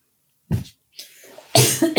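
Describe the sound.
A woman coughs a few times while recording a conversation, with short, harsh bursts separated by brief pauses and the last one the loudest.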